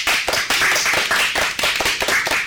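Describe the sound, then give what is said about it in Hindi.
Applause from a group at a children's quiz: many hands clapping in a dense, steady burst that keeps a fairly even level throughout. “जोरदार तालियां हो जाए।”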